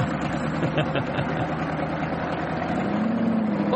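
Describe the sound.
An engine fitted with straight pipes on a vehicle with full-size wheels produces a loud, steady, low rumble that runs unbroken through the whole clip, with a dense mid-range roar and no clear surge in revs.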